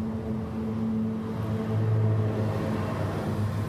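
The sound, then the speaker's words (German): Car engine at full throttle while changing lanes, a steady low rumbling drone with a slight swell midway through, no voices. “Ich gebe jetzt einfach mal Vollgas und ziehe rüber.”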